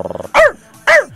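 A dog barks twice, loud and sharp, each bark dropping in pitch, after a short pulsing growl at the start.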